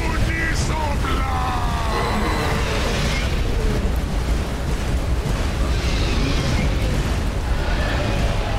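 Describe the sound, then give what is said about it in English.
Deep, roaring blast of a dragon exploding in a video game: a dense, continuous rumble holds at full loudness for the whole stretch, with no separate bursts standing out. “Everything is going gray. He just exploded. All his soul is ascending.”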